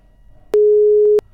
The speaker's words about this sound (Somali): Khadka telefoonka ayaa dhegeystahaasi ka go-ay.